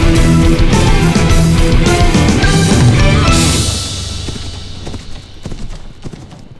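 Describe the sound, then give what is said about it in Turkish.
Horse hoofbeats clip-clopping through a forest: a loud, dense stretch of clattering hooves with a sustained tonal layer beneath, then thinner, irregular clops that continue to the end. “Fil Hakika, bu nal seslerini deli ormanında tanıdığını çok geçmeden öğrendik.”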